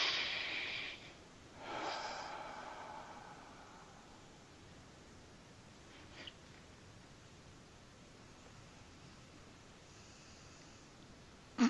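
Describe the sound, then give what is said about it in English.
A slow, comfortable breath: a couple of soft, airy breath sounds in the first few seconds, faint and breathy, then quiet steady hiss with a small click near the end. “So again, take a comfortable breath.”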